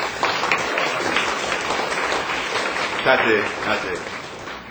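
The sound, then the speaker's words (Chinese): A church audience claps to welcome new friends, a dense, steady patter of many hands that holds at an even level throughout. “好，咱拍鼓啊，甲伊欢迎。”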